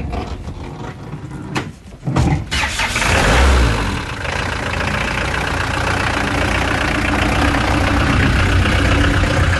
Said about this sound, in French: On va à la maison d'un coup de camionnette de gendarmerie, là, vite fait.